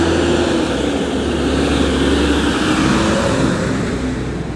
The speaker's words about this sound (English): Damn, that's a loud truck.